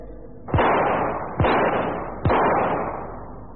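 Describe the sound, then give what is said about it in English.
Three loud gunshots fired at a target, spaced roughly a second apart, each a sharp crack followed by a long, fading rumble. “Two plum center, staggered firing. Two center, one just off the rapid firing. Oh, that's not too bad. Lee, any comments while I reload?”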